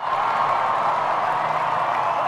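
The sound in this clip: Deafening crowd cheers for Queen Elizabeth as she appears with the royals on the Buckingham Palace balcony, a continuous loud roar of cheering and applause that holds without a break.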